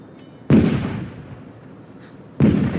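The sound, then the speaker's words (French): Cannon fire: two heavy, booming blasts about two seconds apart, each bursting out loudly and trailing into a long, fading low rumble. “Pourquoi tire-t-il le canon? Vous avez entendu?”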